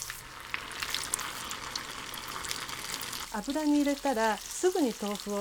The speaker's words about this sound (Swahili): Ikiwa mafuta yatakuwa ya kutosha na yote yawe na kiwango sahihi cha nyuzi joto, unaweza kukaanga vipande vingi vya tofu kwa wakati mmoja.